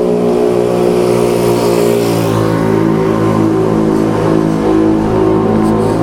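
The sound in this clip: A poorly maintained motorbike's engine, a loud, steady, buzzing drone that holds an even pitch and level throughout.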